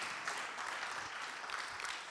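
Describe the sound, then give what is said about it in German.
A church audience applauds with faint, steady, dense clapping that carries on evenly for the whole stretch and never builds into a peak. “Ich hatte so gedacht, wir können einfach mal einen Applaus geben für das tolle Team und für die ganze Gemeinde und für unseren Herrn. Applaudiert mal, darf man das?”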